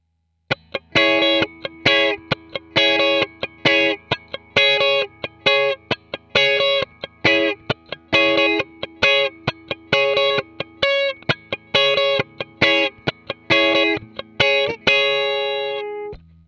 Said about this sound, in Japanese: つまり、今聞いていただいたのが、 まあ、カッティングというわけですね。